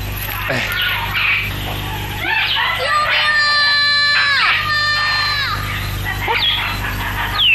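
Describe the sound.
A child crying and wailing in rising, strained cries that swell and break over about seven seconds, loud above a steady low background hum, with a cry of help and voices nearby.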